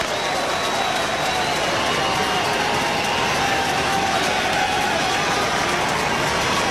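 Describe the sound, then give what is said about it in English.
Oklahoma Sooner fans making noise during a college baseball game in the bottom of the third inning, a steady, loud roar of cheering and clapping that holds without breaks. “Sooner fans making noise, trying to help Rager in the bottom of the third.”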